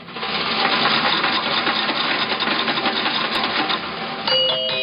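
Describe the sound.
A coin-operated fortune card machine runs with a loud rattling, whirring mechanical clatter for about four seconds, then ends in a few short bright chime tones.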